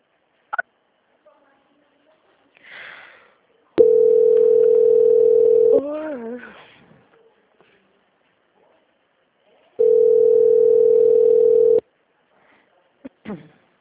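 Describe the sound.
Telephone tones during a call transfer: two long, steady, mid-pitched tones of about two seconds each, separated by a pause, with brief softer sounds around them.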